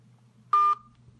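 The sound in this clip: One short telephone keypad tone beeps as a phone number is dialed, a clean, bright electronic beep over a faint low hum.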